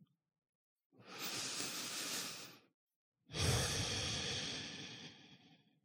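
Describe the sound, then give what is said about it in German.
Deep, slow breathing during a guided breathing exercise: two long, airy breaths. Each rises and then fades, and the second starts more forcefully and trails off gradually. A short silence separates the breaths. “Atme so tief und langsam wie möglich.”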